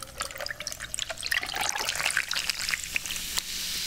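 Cola pours over a large chunk of ice, a soft, uneven trickle laced with fizzy crackling and small clicks that grows slightly fuller as the glass fills.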